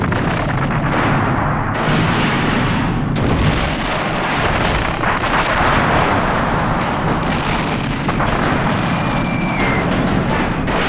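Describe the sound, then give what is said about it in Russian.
A long row of black metal barrels exploding one after another beside a railway wagon hit by a bomb: a continuous loud roar of booms and blasts, with several sharper bursts breaking through the dense rumble. “Упавшая бомба взрывает вагон, стоящий около длинного ряда черных металлических бочек. Одна за другой бочки взрываются, выбрасывая высоко вверх большие огненные всполохи.”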